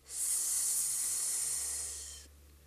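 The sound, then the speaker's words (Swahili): A steady, loud hiss standing for a venomous snake emerging from a bush beneath a baobab tree: one sustained, breathy sound lasting about two seconds that eases off slightly before cutting out. “Lipua alisikia sauti ya nyoka mwenye sumu kali kwa jina Ninkinanka akitoka kichakani chini ya mbuyu huo.”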